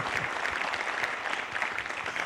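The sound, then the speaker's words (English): Steady applause from a church audience welcoming a guest speaker to the front during a service. Dense clapping from many hands runs continuously at an even, moderate level throughout. “put your hands together and welcome dr joe davis”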